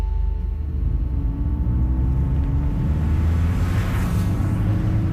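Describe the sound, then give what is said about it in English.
Steady road rumble of a car driving down a freeway from Los Angeles toward Long Beach, California, a continuous low drone with even loudness throughout and no talking. “I'm driving down the freeway from my house in LA to the satellite city of Long Beach, California.”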